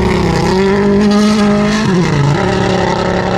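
A Toyota rally car passes on a rally stage, its engine a loud, continuous, rough-sounding drone. The pitch holds steady, dips briefly near the middle, then settles lower.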